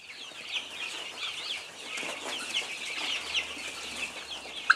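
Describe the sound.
Chickens and chicks cluck and cheep while being fed, giving a dense, steady chatter of soft clucks and high peeps. A brief sharper chirp stands out near the end. No one speaks.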